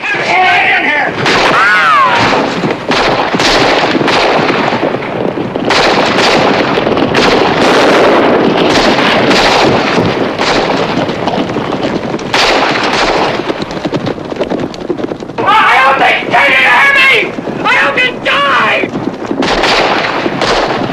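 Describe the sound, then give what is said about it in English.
Gunfire in a shootout: repeated sharp shots burst through a dense, continuous roar of loud action sound, with voices heard at a few points. “Pops, in an exposed window, takes a bullet to the chest, and in a moment of desperation, runs out to get the saddlebags.”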